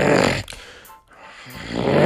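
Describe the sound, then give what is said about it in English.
A voice imitates a woman snoring loudly. One rough, rasping snore comes at the start, followed by a quiet gap, and a second snore builds up loud at the end. “she's snoring loud”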